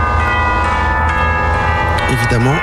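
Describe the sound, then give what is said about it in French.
Church bells peal inside a jazz piece, a dense, sustained wash of metallic tones ringing together with the music. A wavering melodic line rises and dips near the end. “Évidemment, la volée de cloche est complice et amène la modulation, le changement de tonalité.”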